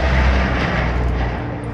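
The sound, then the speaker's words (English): Engine roar from a vintage wartime de Havilland DH-98 Mosquito aircraft in flight. A loud, dense rumble heavy in the low end holds steady and eases slightly toward the end of the brief stretch. “the de Havilland DH-98 Mosquito. Over 7,000 Mosquitoes were built in Canada, Britain, and Australia during the war, and they have all but disappeared from the sky, until now.”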